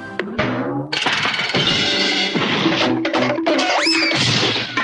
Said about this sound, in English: That's the sound of your appliance calling it quits.